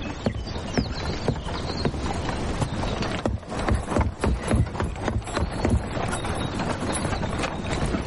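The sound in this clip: Horse hooves clip-clopping as a horse-drawn cart comes along a road, a steady stream of clops with a continuous rough rumble beneath.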